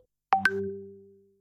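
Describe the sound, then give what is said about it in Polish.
An incoming WhatsApp call sounds as a two-note electronic chime, the second note higher, followed by a sustained tone that fades away over about a second, with no talking. “a nie dowiemy się dlatego, że nam ktoś dzwoni na WhatsAppie”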